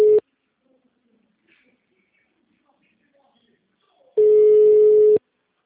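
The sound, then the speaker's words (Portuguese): Ringback tone of an outgoing phone call to a bank line, a steady mid-pitched electronic buzz: a short tail cut off at the start, a long quiet gap, then one full ring lasting about a second. “Acho que eu vou ligar de novo.”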